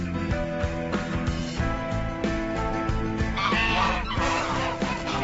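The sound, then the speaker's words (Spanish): Geese honk loudly and without a break, many harsh, overlapping calls from an agitated flock that has just gone for someone, dense and continuous throughout. “¿Qué les pasa a esos patos? Querían atacarme. Eso no son patos, son ocas.”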